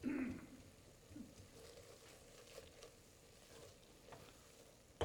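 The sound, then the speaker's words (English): Butter melting in a pan gives a faint, steady sizzle with soft crackling. It is slightly louder at the very start and then settles into an even hiss throughout. “All right, now we're going to melt our butter. And once we get it completely melted, which we're almost there,”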